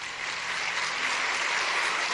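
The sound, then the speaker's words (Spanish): Applause from an audience at a Christian gathering, honoring young people under twenty, a steady dense clatter of clapping that holds evenly throughout with no voices over it. “por favor, menores de 20 años, démosles un aplauso.”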